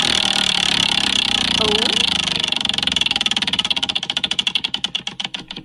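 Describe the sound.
A spinning wheel picks a random area, its pointer clicking in a rapid buzzing stream that gradually slows into distinct, spaced ticks as it winds down.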